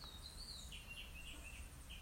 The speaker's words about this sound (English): Do you hear the birds chirping?